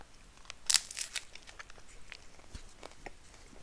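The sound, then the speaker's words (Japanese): Crunching and chewing of a small Hershey's ice cream monaka with a firm chocolate centre, a run of dry bites and crinkly wafer crackles, loudest near the start. “ちょっと今デザート食後のデザートにハーシーズのモナカハーシーズのアイスモナカを食べるこれね安かったんだけど美味しいよちっちゃいやつね”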